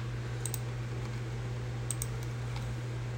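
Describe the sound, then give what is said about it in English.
Faint typing on a computer keyboard as a title is entered into a form, heard as a few sparse, light clicks over a steady low hum. “So you just type in your title,”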